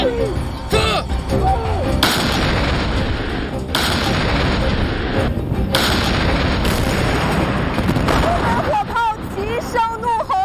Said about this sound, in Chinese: 这轮齐射，整个炮兵连的所有火炮集体上阵，几乎同时发射，